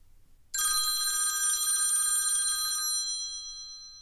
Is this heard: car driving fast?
no

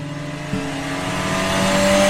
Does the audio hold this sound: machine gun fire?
no

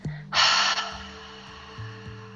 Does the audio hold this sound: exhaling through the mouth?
yes

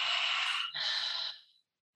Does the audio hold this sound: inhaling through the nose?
yes

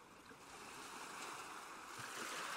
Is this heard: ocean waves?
yes

